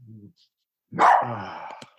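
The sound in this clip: A dog barks: a brief low sound comes first, then a loud, rough, sustained burst lasting about a second.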